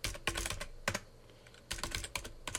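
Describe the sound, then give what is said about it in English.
Someone types a username, an email address, on a computer keyboard, with quick bursts of crisp keystroke clicks separated by a brief pause. “So I'll type in my username, which is my email address.”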